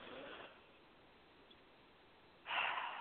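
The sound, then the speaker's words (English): A deep breath taken during a guided relaxation: two soft, breathy rushes of air, a quieter one at the start and a louder one at the end, with near silence between them. “So everyone just take a deep breath”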